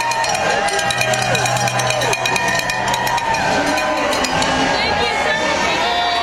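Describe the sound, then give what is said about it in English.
A crowd at San Diego airport's Terminal 2 welcomes home 90 veterans returning on an honor flight. Clapping and cheering run constantly under many voices, with steady loudness throughout. “The 90 veterans on board the 33rd annual honor flight returned home to San Diego after spending the weekend in Washington, D.C. This was the sound of them being welcomed back.”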